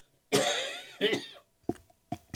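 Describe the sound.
Coughing from a man mid-talk about mulching on a cold 43-degree day: two loud, harsh coughs followed by two short, fainter bursts, with no speech in between.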